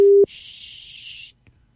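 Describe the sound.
A telephone call tone sounds as a call is placed on a birthday: one short, steady beep, then about a second of loud hissing static that cuts to near silence with a faint click.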